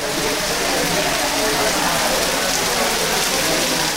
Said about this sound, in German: Jetzt plattert der Regen auf die Felder und Hütten. Vielleicht der letzte heftige Niederschlag am Ende der Regenzeit.